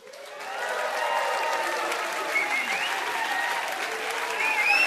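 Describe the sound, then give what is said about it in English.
A live audience applauds at the Night of Ideas event at the San Francisco Main Library. The clapping builds quickly over the first second, then holds as a dense, steady wash of applause. “As you can hear, we have a live audience, and we are delighted to say that the live audience is here and will be participating in this evening's broadcast.”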